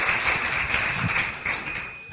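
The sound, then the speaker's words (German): An audience in a church applauds, giving a dense, continuous wash of clapping at moderate volume that thins slightly toward the end. “Give him praise. Give him praise. Ihm einen Applaus geben.”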